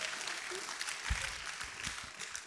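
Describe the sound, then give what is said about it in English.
Faint, steady audience applause for a couple celebrating 35 years of marriage, a soft continuous patter of many hands held at low level throughout. “that applause is for her, not me.”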